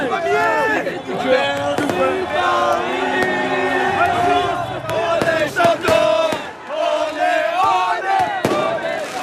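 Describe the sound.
Paris football supporters celebrate in a bar in the 14th arrondissement, a loud crowd chanting and singing together, with shouts and sharp percussive hits throughout.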